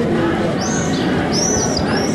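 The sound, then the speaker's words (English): High, thin screaming calls of swifts at their nesting site in the cracks of an ancient wall at a religious site, a few brief sweeping calls over a steady, loud background hiss. “Amnon Han, the head of the Friends of the Swifts Association of Israel, says the swifts fly nearly 3,000 miles to reach this spot”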